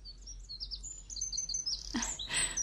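Birds chirp in a rapid series of faint, thin, high tweets, followed near the end by two short, louder noisy bursts.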